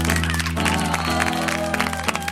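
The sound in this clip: Hands clap along to a sung children's song, a few sharp claps over bright music and singing voices, the claps landing at a steady beat.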